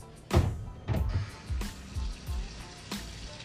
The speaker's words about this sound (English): And rinse the starch off. Drain it.